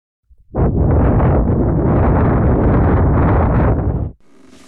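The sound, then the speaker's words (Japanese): A long, steady breath blown into the ear after an ear cleaning makes a loud, airy rush that holds for several seconds, then cuts off abruptly. “こうして、お耳に息を吹きかけて、完了です。”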